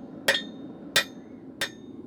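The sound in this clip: A hammer smashes a workpiece to open a hole for a handle, striking three evenly spaced blows. Each is a sharp, bright clang with a brief ringing tail over a faint background hum.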